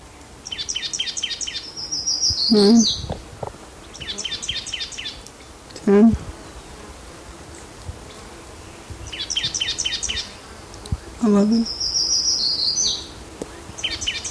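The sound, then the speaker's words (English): A black-throated gray warbler sings high, buzzy, repeated phrases several times, with quiet gaps between songs and brief low spoken words in between. “blackthorn gray warbler in the background”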